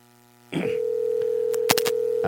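A telephone tone as an outgoing call is placed: a steady, clear tone begins after a short quiet start and holds to the end, with a few short, brighter bursts in the middle.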